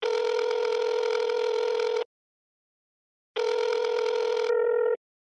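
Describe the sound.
Ringing tone of an outgoing telephone call that goes unanswered: two long, steady buzzing rings of about two seconds each, separated by a short silent gap, with no voices.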